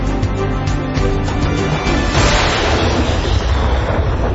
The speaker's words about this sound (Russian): Я все равно потоплю вашу шхуну. Джимми, целься! Эй, там! Держите подарочек! Огонь!